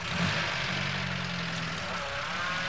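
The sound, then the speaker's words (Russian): A car engine runs with a steady low rumble and broad noise as the car reverses, turns around and drives away, holding a fairly even level throughout. “Оборачивается, машина сдает назад, разворачивается, уезжает.”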